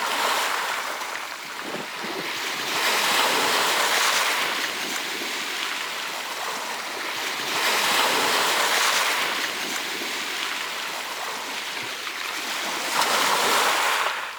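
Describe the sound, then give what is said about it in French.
Ocean waves roar continuously as surf swells and ebbs in slow surges, with a few louder crests rising out of a steady, broad hiss, with wind mixed in. “Oui, c'est le son de l'océan.”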